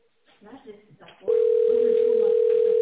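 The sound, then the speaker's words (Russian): A steady, continuous telephone tone sounds on a phone line while a call is being transferred to an operator. It starts abruptly after brief speech and holds one unbroken, even pitch to the end. “Ваш звонок переводится оператору. Пожалуйста, оставайтесь на линии.”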